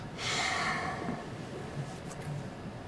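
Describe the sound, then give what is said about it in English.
One long, airy exhalation during a guided morning meditation and breathing exercise, a soft rushing breath that swells quickly and then thins out. “Awakening your own inner fire. And now exhale.”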